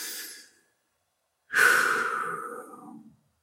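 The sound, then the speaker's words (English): A deep breath taken during a mindfulness practice: a short, soft breath at the start, then after a pause a longer, louder airy breath that slowly fades over about a second and a half, with no talking. “I actually really just want to take a deep breath”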